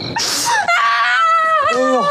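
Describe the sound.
A woman crying in loud, high wailing sobs that bend up and down in pitch, running almost without a break for about two seconds.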